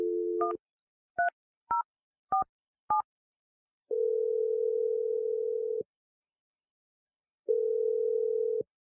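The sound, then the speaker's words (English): A telephone being dialed and then ringing on the line: a brief dial tone, five quick keypad beeps, and then two long, steady ringback tones separated by a gap of silence. “I'm going to dial his number.”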